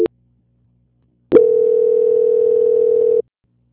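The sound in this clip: A telephone line tone during a call transfer: a brief opening beep, then a steady single-pitch tone that holds for about two seconds before cutting off, with no voices.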